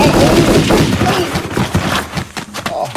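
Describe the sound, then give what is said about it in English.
Gunfire from a very large, heavy gun with a strong kick: a rough burst of loud, booming reports and sharp thuds, dense at first, then breaking into separate cracks. “Well, couldn't you fire it prone? No, not a gun that big.”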